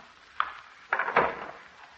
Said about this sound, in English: she's unlocked 3 different locks to open that door.